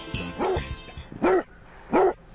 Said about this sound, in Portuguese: Doberman, acha? É Doberman, sei. É dublagem? Café. Olha, puseram um cachorro aqui,